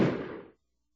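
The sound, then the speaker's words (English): A single gunshot sound effect: one sharp, loud bang with a short, rough decaying tail that dies away in about half a second, followed by silence. “I shot him because he said something about her hygiene.”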